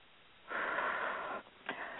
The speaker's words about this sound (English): And now take a deep breath and just let it blow out as though you were blowing all the troubles of the world away.